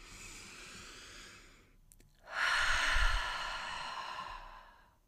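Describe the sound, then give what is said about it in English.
A deep breath drawn in through the nose, then let out through the mouth. A quiet, airy inhale is followed by a brief pause and a longer, louder, rushing exhale that slowly fades, with no talking. “let's just take a quick deep breath. In through your nose, out through your mouth.”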